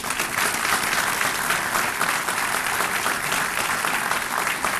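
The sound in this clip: Warm audience applause welcoming students at a civic gathering after the Pledge of Allegiance, a full, even stream of clapping that stays steady throughout.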